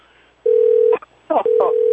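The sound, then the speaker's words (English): A telephone rings with two steady electronic tones of equal pitch, each about half a second long, separated by a short pause filled with brief noise. “Oh, here we go with the phone again.”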